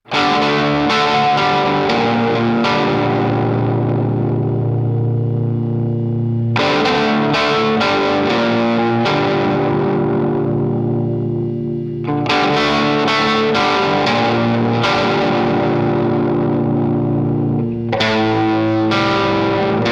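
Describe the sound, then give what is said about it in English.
A Les Paul guitar plays through a Plexi amp and an El Capistan delay set to a short slapback, giving a grunge-style distorted tone: bursts of quick, crunchy chords alternate with long, sustained chords that ring with a gentle warble and modulation. “I'm getting more of a grunge type sound with the El Capistan now, so it's on a shorter slapback, but there's a really cool warble that happens and modulation that I really like on it that you'll hear in this example.”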